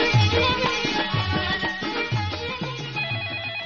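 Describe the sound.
A melodic electronic telephone ringtone sounds before a caller is answered, repeating a short bright phrase over and over at a steady rhythm, moderately loud with no voices.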